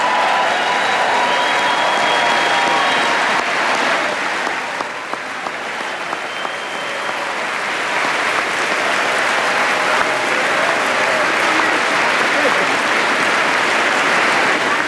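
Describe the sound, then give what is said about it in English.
Women legislators in the chamber stand and applaud at the State of the Union address. The clapping is dense and sustained throughout, dipping slightly midway before swelling again. “This is women in the chamber on their feet, including all those Democratic women who turned out in white tonight, applauding the record number of women among their ranks at this State of the Union address.”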